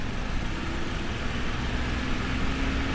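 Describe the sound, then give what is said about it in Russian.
Truck engine running while the truck is driving: a steady, low, rumbling drone with a dense, even texture that stays at a constant level throughout, with no voices. “едет за рулем своего грузовика”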